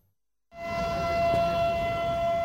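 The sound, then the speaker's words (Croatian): An air-raid alarm siren sounds at a commemoration for victims of the NATO bombing, starting abruptly after a moment of silence and holding a loud, steady wailing tone. “Simbolično, sirenom za uzbunu i zvukom voza u Grdeličkoj klisuri počelo je obilježavanje dana sjećanja na žrtve NATO bombardovanja.”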